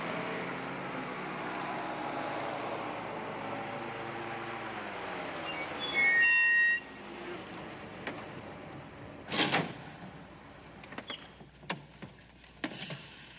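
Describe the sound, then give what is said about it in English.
A car pulls up: a steady engine hum with a shifting tone for about six seconds and a short, louder whine, then the engine fades and a few sharp clicks and knocks follow. “Car pulls up.”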